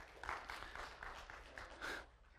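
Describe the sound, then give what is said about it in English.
Feeble applause from the audience at a Bible teaching session: quiet, sparse clapping in a few short, scattered bursts that never builds into a full ovation. “A little feeble applause, but I'll take it”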